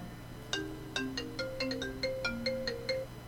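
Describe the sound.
An incoming call sets off a phone's melodic ringtone: many short, bright electronic notes in a bouncy, regular rhythm, repeating a simple tune, alone and fairly soft.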